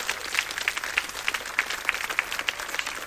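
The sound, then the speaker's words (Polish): Audience applause at a concert event, a dense, steady patter of many hands clapping together that keeps an even level throughout, with no voices heard. “Brawa gorące dla naszych partnerów.”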